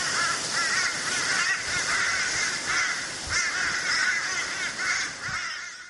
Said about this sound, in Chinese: 呢个乌鸦声